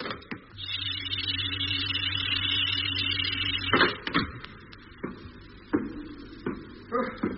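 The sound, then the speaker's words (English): A spacecraft hatch opening after pressurising, as a radio-drama effect: a steady mechanical hum with a high hiss lasts about three seconds, then a loud clunk is followed by several sharper knocks and clanks. “Air pressure maximum. You can remove your helmet now. Thanks, Doc. Hatch opening.”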